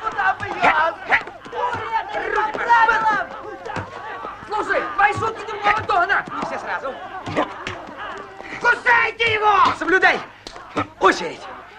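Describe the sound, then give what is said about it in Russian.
A crowd brawl in an animated film: many voices shout, grunt and yell at once, with sharp thumps and scuffling hits throughout, loud and busy. “Ури бьет его ребром ладони по спине. На Урия набрасывается толпа, начинается потасовка.”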